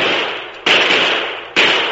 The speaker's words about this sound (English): Get down. Down on the ground. The shots. Stay here. Down.